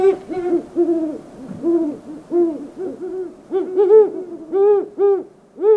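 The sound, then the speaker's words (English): Male and female great horned owls hooting in many deep, rhythmic hoots that overlap as a steady series, with a second hooting voice joining in the later part. “Hoots of the male great horned owl are lower in pitch than those of the female. Now, listen for the moment the female flies in to join the male.”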